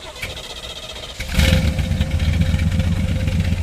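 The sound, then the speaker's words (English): A 1969 Chevrolet Corvette Stingray C3 with a 350 V8 rated at 350 horsepower starts up. A low background gives way to a sudden loud catch, then a deep, steady, rumbling idle. “Chris Wisnowski is firing up his pride and joy. It's a 1969 Chevy Corvette Stingray, so it's a C3 model, second year of the C3”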